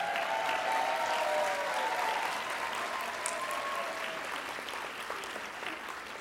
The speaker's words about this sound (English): Let's give them a warm Federation welcome.